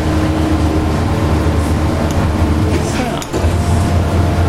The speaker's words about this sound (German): Dann wird der Teig ausgerollt. Das müssen wir Gott sei Dank nicht per Hand machen, sondern macht eben die schöne Maschine für uns.